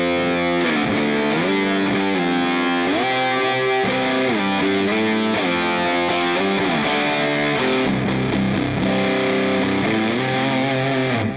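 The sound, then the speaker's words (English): Distorted electric guitar runs through a distortion pedal, compressor and 10-band EQ. It plays a continuous, loud stream of sustained chords and shifting notes with rich harmonics, and the background grit is smooth rather than harsh. “So it's got a nice clarity to it. But it also has a good kind of distortion in the background, but not too abrasive.”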